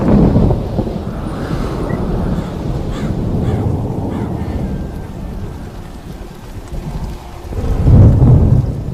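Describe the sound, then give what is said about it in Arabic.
Deep, rolling thunder rumbles over steady rain. The low, continuous roar starts strong, eases slightly through the middle, then swells loudly again near the end. “بدات اسمع صوت الرعد،”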